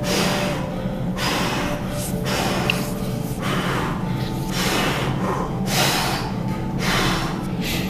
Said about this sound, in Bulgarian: Продължително вдишване и по-рязко, естествено освобождаващо издишване. Бастрика, прана яма, ковашки мях дишане.